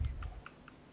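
Keystrokes on a computer keyboard with a US layout as shift is used to type an underscore: a handful of sharp, evenly spaced clicks over a low thump, with no talk.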